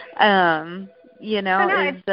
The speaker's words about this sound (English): I'm sorry for the phone ringing, by the way.